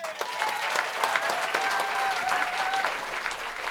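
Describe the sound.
An audience at the Edinburgh Folk Club at the Pleasance gives dense, steady applause that stays loud throughout, with a thin whistle riding above the clapping.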